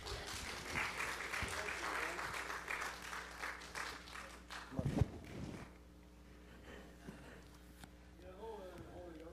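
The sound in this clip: Applause from an audience welcomes the evening's preacher. Loud, continuous clapping lasts about five seconds, then quickly dies away, leaving a quieter stretch where a voice begins to speak.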